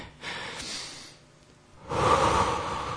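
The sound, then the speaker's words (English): A deep breath taken during a guided relaxation: a soft, airy inhale is followed by a brief quiet pause, then a longer and louder exhale. “I encourage you to take a deep breath. Can you all do that with me?”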